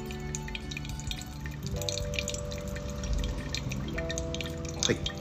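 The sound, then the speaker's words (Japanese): Hot water poured steadily over 10 g of coffee grounds in a pour-over dripper, up to 150 g of water, making a continuous soft trickling stream with faint dripping and splashing throughout. “抽出に使うお湯をどんどん注いでいきますで最終的に 150cc、ま 150g ですねお湯を注いだところで”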